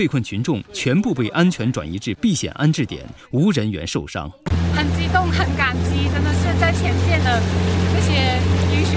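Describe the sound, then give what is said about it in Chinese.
A rescue assault boat motors against a fast floodwater current, its engine a loud, steady, buzzing drone that follows a few seconds of talk. “救援民警不惧险情，驾驶冲锋艇逆流挺进，抵近被困楼洞。”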